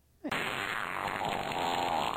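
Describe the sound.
A long, loud fart sound effect lasting about two seconds: a brief soft lead-in, then a rough, buzzy, sustained blast that holds steady to the end, with no voices.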